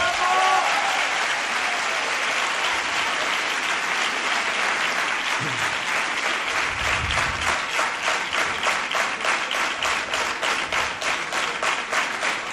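Audience applause at a live radio event: a dense, steady wash of many hands clapping that holds at an even, loud level from start to finish.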